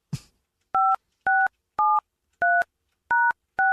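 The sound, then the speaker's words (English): Telephone keypad tones sound as six evenly spaced, dual-pitched beeps, each about a quarter second long. A short click comes before them, and no voices are heard. “I dialed 9 and then 1, right?”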